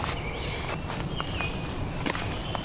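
Footsteps walk through a shaded woodland understory: a few soft, irregular steps on the forest floor, fairly quiet, with no talking.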